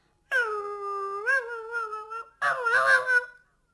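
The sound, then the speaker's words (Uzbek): A puppy gives two loud, drawn-out, high whining howls. The first lasts about two seconds and the second is shorter and rougher, with no talk over them. “Kuchuk irillabdi-da o'ziga o'zi.”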